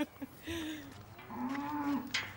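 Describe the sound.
A limping cow on a farm lows in drawn-out, low-pitched calls that waver slightly. The mooing is fairly faint against a steady background murmur.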